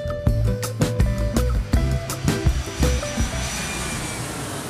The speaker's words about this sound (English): buckle your seatbelts and make sure your tray tables and seats are in the upright positions as part two of Monica's round trip story gets ready for takeoff.